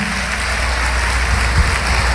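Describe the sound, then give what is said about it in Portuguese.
A church audience applauds in a dense, steady roar of clapping. The sound holds at an even, loud level throughout, with no clear talk above it. “Vamos aplaudir, igreja.”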